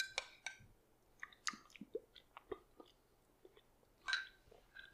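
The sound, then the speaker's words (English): Someone chews a mouthful of gluten-free sausage and kale soup, including a big chunk of kale. Many faint, wet clicks and soft crunches come in an irregular rhythm, with no talking. “Tasting on a podcast is not that exciting. I got a big chunk of kale.”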